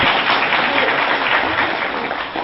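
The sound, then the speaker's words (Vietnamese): Audience applause after a woman shares her view in a group discussion led by a teacher: a dense, steady wash of many hands clapping that holds at an even level throughout, with no breaks. “cho chào pháo tay đi”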